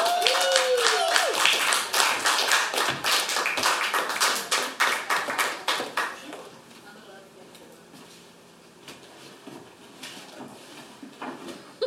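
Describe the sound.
Applause welcoming a performer onto the stage at a music festival: many hands clap loudly and densely for about six seconds, then the clapping thins to scattered, fading claps.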